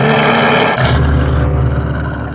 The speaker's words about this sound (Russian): У входа в пещеру стоял огромный тигр. Его звали Шерхан.